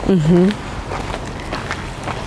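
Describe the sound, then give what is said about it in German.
Footsteps crunch along a gravel path in a steady walking rhythm of soft, evenly spaced steps, with a brief voice at the start. “ist der Kiesweg. Schön angenehm. Laufe ich eigentlich gern, wenn er stolperfrei ist von irgendwelchen Wurzeln und so, sondern wirklich nur Kies, ist das sehr angenehm zum Laufen.”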